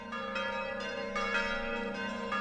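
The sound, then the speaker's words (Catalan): Church bells ring for a royal coronation in the year 1527. Several overlapping strikes blend into a sustained, humming, multi-toned ringing at moderate loudness. “Estan sonant les campanes perquè el papa Climent VII”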